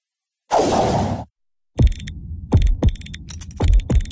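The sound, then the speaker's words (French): A clockmaker's clockwork mechanism in Uccle, Brussels, gives a brief whooshing rush, then falls silent before a run of sharp, bright mechanical clicks at slightly uneven intervals. “Vous entendez? C'est l'horloger, l'artisan du temps à Uccle, qui fait battre le cœur de Bruxelles.”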